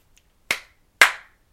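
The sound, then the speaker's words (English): Three sharp hand claps, evenly spaced about half a second apart, each a crisp slap that decays quickly into silence, with nothing else heard. “That's me clapping. I'm clapping for you.”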